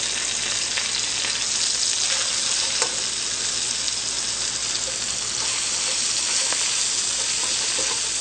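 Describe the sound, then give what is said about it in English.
Vegetables with ginger and spring onions stir-fry on high heat, giving a loud, steady, unbroken sizzle and hiss throughout, with no voices. “Remember, you just want to stir fry these vegetables on high, because we're not really cooking them where they're soft.”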